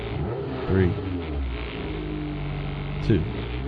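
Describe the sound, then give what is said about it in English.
A drag racing car accelerating, a low steady engine drone that swells into two brief louder bursts near the start and end, with people talking over it. “3, 2, 1. Watch him. This is drag racing right here. Look at that.”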